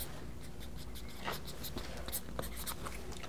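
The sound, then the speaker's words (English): A pen scratches softly across a playing card as someone signs its face, quick faint strokes and scribbles in a short, uneven run. “I'm going to have you sign the card, actually, on the face of it.”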